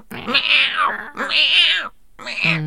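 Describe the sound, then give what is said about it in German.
A human voice imitates the meow of an old cat with three loud, drawn-out, wavering meows. The last one is cut short, and there is no other talk. “Und die hat ja auch so miaut wie eine alte Katze. Ne? Ja. Die hat ja wirklich immer so”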